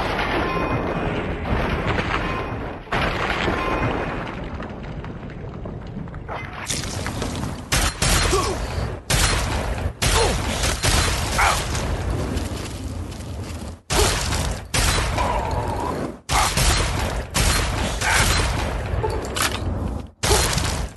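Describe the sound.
Gunfire rattles through a video game shootout with mercenaries: a loud, dense, continuous clatter of shots that keeps up almost without pause, broken only by a few very short gaps.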